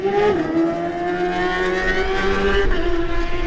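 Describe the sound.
A Ugly & Co Racing Suzuki Supersport racing motorcycle pulls away from the start line. Its engine holds a loud, steady droning note with strong harmonics and slight shifts in pitch.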